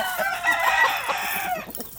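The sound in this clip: Chickens clucking in a chicken coop, a busy, continuous chatter of overlapping clucks and squawks that lasts about two seconds.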